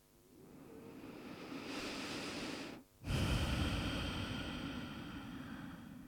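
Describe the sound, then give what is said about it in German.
A deep breath in and out: a long, airy inhale swells over nearly three seconds, breaks off for a brief pause, then a stronger, louder exhale follows and slowly tapers, with no talking. “Nimm einen tieferen Atemzug ein und aus.”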